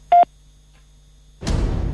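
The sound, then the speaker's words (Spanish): A short, clear beep from a telephone voicemail system marks the start of recording. After the single steady mid-pitched tone, a silent pause follows, then a loud, broad rushing noise sets in. “Por favor, deje un mensaje después del tono.”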